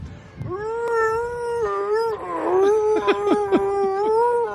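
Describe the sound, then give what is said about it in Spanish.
Human voice imitating a Wookiee roar, like a wounded cow: a long, wavering, moaning howl that turns into rough, gargling bursts midway and again near the end, alone and fairly loud. “Si hay algún ruido con el que puedas sorprender a tus amigos y dejarles partiéndose de risa, es el ruido de Chewbacca.”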